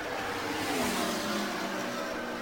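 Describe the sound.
IndyCar race cars finishing the 83rd Indianapolis 500: a continuous, steady roar of racing engines with no breaks, fairly quiet throughout.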